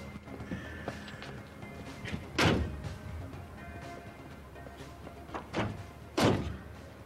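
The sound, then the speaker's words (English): A car door slams shut, giving a few dull, heavy thuds over a low, steady background. The loudest thud comes near the end. “slams the car door and heads indoors.”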